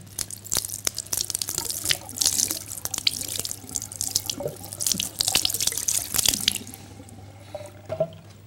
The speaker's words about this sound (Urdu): پانی ڈالا جائے اور بعد میں ایسے ہاتھ پھیر لیا جائے؟